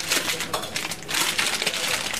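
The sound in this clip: Products are unpacked in a cheese shop with many light, irregular clinks, clicks and rustles of packaging and containers, fairly quiet and unsteady in rhythm.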